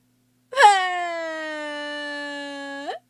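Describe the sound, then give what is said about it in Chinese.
A Barbapapa character cries in a single long, steady wailing tone that holds for about two and a half seconds and tilts upward briefly at the end, with silence around it. “巴巴布莱特急得，”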